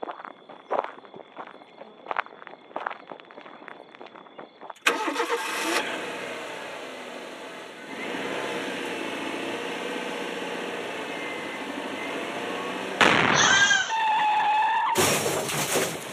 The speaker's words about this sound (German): Sie ist an einen Hydranten gefahren. Ja. Qualm steigt aus der Motorhaube.